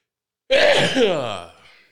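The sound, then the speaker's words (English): A single loud, voiced sneeze from someone troubled by allergies, bursting out abruptly and then trailing off over about a second. “And I got to sneeze.”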